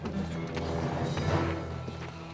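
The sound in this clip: Horses' hooves clip-clop as cowboys ride into town, a rhythmic patter of hoofbeats mixed with music.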